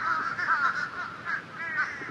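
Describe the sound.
Crows caw over a barren, devastated area of collapsing houses. Their harsh, overlapping calls form a continuous clamor at a fairly steady, moderate volume.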